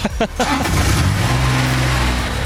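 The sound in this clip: Steady engine drone from a small go-kart-like ride-on vehicle with a top speed of about 6 km/h. The motor runs evenly with a low, buzzing hum that holds at a constant pitch.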